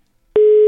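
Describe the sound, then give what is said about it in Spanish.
A single steady electronic telephone line tone after a dropped call, pure and mid-pitched, starting abruptly and cutting off cleanly after about a third of a second. “Hablábamos porque se le cayó la llamada. Ay, pero ¿por qué suena así?”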